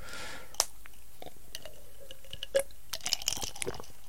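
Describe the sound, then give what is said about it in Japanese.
Iced coffee is being drunk, with quiet sips and a few sharp clicks and crunchy ticks scattered over a low, hushed background. “あ飲み物はね、アイスコーヒーです。今日はアイスコーヒーを飲んでます。”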